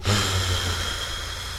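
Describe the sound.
A patient blows out hard during a medical procedure with local anaesthetic injections: one sustained, breathy, forceful exhalation that starts strongest and eases slightly as it goes on.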